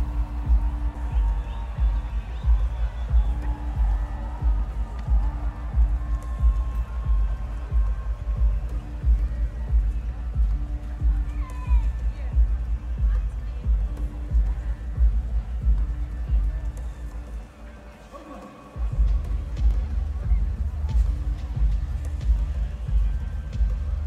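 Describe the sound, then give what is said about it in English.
A distant music festival comes through as a low, muffled throbbing rumble that holds steady throughout, dipping briefly near the end before returning. “And hear the sound of a distant music festival.”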